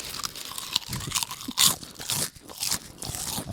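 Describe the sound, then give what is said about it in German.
Loud, crisp crunching of potato chips being chewed during a timed 60-second chip-eating challenge, with many irregular bites and chews in quick succession. “Wir essen jetzt 60 Sekunden Chips, oder? 60 Sekunden Hardcore Chips essen.”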